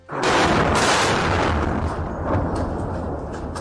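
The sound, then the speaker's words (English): Airstrike explosion near military headquarters in Khartoum, a sudden heavy blast that spreads into a loud, sustained low rumble, swelling again briefly before slowly easing. “That is the sound of an airstrike that hit close to military headquarters in Khartoum Tuesday morning.”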